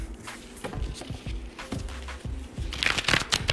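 Tarot cards being shuffled and handled, with soft papery riffles and light taps. The crisp flicks grow busier and brighter toward the end, and no voices are heard.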